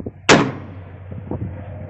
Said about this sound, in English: We're going to shoot at a group of shovelers.